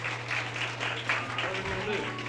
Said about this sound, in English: Let's give Bill a big round of applause.